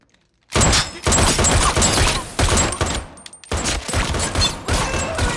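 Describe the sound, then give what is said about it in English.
Rapid gunfire aimed at a man testing a bulletproof suit. After a moment of silence, loud bursts of many shots crack in quick succession, broken by brief gaps. “Shoot him again. Oh, yeah. Here. Go. Both of you. Come on. Go to town.”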